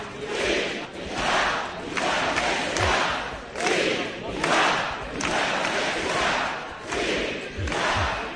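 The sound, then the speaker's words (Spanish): A large crowd outside the Catalan High Court cheers the arrival of Artur Mas. Their chant swells and drops in a steady rhythm, loud repeated bursts of many voices coming roughly every second. “Cual mártir, Artur Mas llegaba ayer a la sede del Tribunal Superior de Justicia arropado por una multitud entre la que destacaban miembros de su gobierno y los líderes de Esquerra y CUP. Este era el sonido.”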